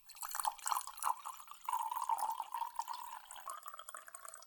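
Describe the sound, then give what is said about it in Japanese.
Hot water is poured into a separate tea bowl while tea is being prepared from powder: a steady, continuous trickle with dripping runs for about four seconds and stands alone. “お次はお湯を別の茶碗に注ぎます。”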